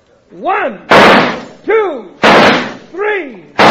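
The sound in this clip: Three loud, sharp gunshots ring out during a shooting contest, spaced about a second and a half apart, alternating with rising-and-falling tonal whines between the bangs.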